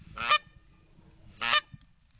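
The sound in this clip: Two loud, harmonic honks from magpie geese in the Northern Territory, about a second apart, with a faint low rumble between them.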